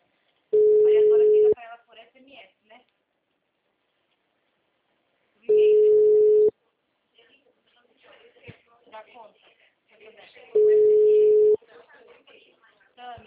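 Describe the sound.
Telephone ringback tones of an outgoing call sound as three steady one-second beeps at a single low pitch, evenly spaced about five seconds apart, with faint rustling and shuffling noises in the gaps between them.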